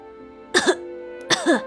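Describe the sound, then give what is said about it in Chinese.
Two dry coughs from an old doctor, each a short, rough, throaty burst with a slight double catch, about a second apart and loud against near silence. “老医生干咳了两声，玉星锤这才回过神来。”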